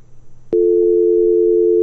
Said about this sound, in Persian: فکر کنم ارتباطشان قطع شد.